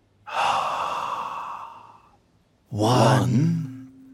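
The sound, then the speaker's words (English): Slow, deep breath drawn in through the nose and released through the mouth: a long, soft inhale of about two seconds, a short pause, then a louder, breathy exhale with a voiced sigh that fades out. “So let's breathe slowly in through our noses. Then slowly breathe out through our mouths and count.”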